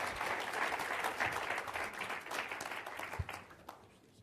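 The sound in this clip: Applause from a church audience welcoming a speaker at the start of a missions conference: a dense, steady wash of clapping that thins and tapers off over the final second.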